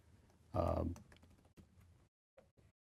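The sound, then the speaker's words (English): Typing on a computer keyboard gives a few scattered, light key clicks after a short, louder voiced sound near the start. “here, I'm just going to type everything.”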